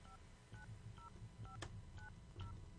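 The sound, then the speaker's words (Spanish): Telephone keypad tones while dialing a number for a radio prize call: six short two-note beeps at a steady pace of roughly one every half second, faint over a low background rumble. “Estamos marcando.”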